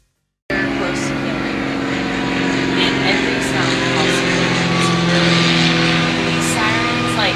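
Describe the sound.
A nearby blower runs with a loud, steady droning hum and a constant low tone. It continues without a break after a short silent start, while people talk over it.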